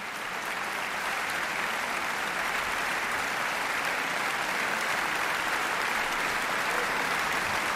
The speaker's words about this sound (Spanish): Ha habido una gran complicidad entre orquesta, solista y director que se ha transmitido al público de la sala y por eso agradecen con esta cantidad de aplausos esa conexión.